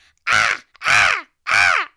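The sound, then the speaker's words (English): A human voice imitates a small bird's squawk with three loud, harsh, caw-like cries in quick succession. Each cry is a nasal, rasping burst with short gaps between them. “this little like bird. And the bird's going,”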